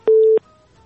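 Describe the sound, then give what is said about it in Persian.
A single short, steady telephone tone sounds as a call cuts off, a clear mid-pitched beep lasting about a third of a second before near silence. “زینب جان صدای ما را میشنوی؟ فکر میکنم تماسشان قطع شد، پیشنهادشان هم نیمه ماند.”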